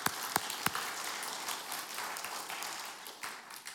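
Applause from a church audience welcoming a guest: a quiet, dense patter of many hands clapping that holds steady throughout, with a few sharper claps near the start.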